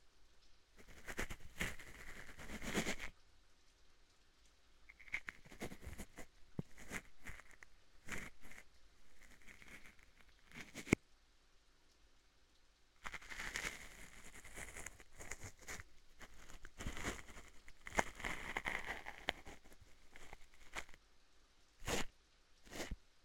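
Faint rain patters in soft, irregular bursts of hissing noise that swell and fade, with quiet gaps between them.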